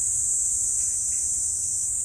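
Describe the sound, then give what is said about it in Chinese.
Cicadas drone beneath a tree in a continuous, high-pitched buzz that holds steady at an even level throughout, over a faint low rumble, with no voices. “这棵树底下听蝉鸣还挺清楚的”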